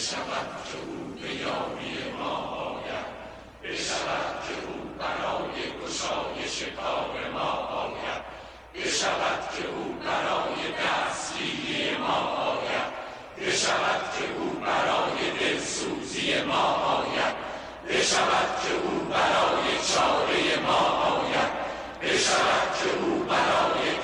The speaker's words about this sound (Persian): نوای یاری طلبه روستاییان از دور دست به گوش می رسد. گویی در افق جماعتی آوایی چنین سر دادند.